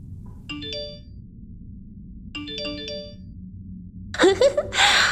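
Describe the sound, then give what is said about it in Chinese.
Phone message notification tone, a bright multi-note chime played twice in the same pattern about two seconds apart over a quiet background. “那个女人又给你发消息了呢，让我看看他又给你发了什么”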